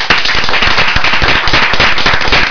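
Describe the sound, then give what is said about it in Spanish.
Applause fills the whole clip: dense, loud, continuous clapping with many sharp overlapping claps and no break. “Yo esto les daría un aplauso”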